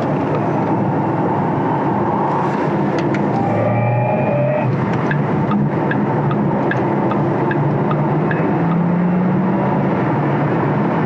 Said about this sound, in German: wir sind jetzt hier auf der 81 und fahren jetzt einfach mal etwas zügiger.